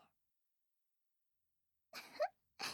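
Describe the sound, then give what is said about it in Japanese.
Someone gives a choking cough after drinking: a few short, harsh, breathy bursts close together, preceded by near silence. “何むせてるの？”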